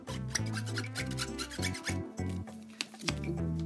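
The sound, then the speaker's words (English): Scratching and rubbing strokes across a rare Pokémon trading card, a Rayquaza EX, heard as a string of short, dry, raspy scrapes over low, sustained humming tones that shift pitch in steps. “when you scratch the card, when you hear that, that means it's rare. Like my Rayquaza EX, when I scratch it,”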